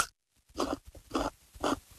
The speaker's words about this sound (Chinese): 又脆又甜，萝卜的味儿特别的浓，很好吃。我再吃一口吧。